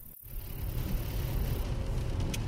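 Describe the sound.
A car drives along a lonely cemetery road with a steady, low engine rumble and a continuous road hum. No voices are heard.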